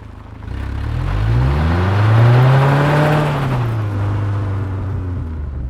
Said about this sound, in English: I'm going to accelerate and you'll hear the gravel being forced away from the wheel